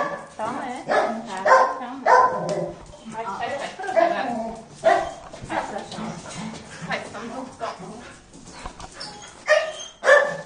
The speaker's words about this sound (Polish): Czarny, bardzo wesoły piesek, tak, mimo niepełnosprawności. Podskakuje, koniecznie chce się witać.